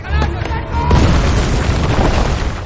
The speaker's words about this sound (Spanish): lanza una granada.